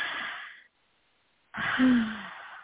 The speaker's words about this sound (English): take about 3 breaths, inhale and exhale.